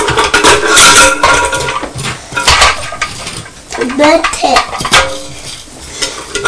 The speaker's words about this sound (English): It's a metal bucket, isn't it? Yeah. It's not like the plastic bucket that Mummy uses to clean with